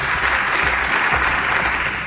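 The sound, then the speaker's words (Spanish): Applause for a candidate's speech at a parliamentary investiture plenary session: dense, steady clapping from many hands, loud and continuous throughout with no clear break. “Son los aplausos para el señor Mañueco en su intervención.”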